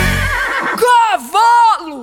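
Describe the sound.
A horse neighs in two loud, bright whinnying bursts with a quavering pitch, separated by a short gap and following a brief stretch of lower sound.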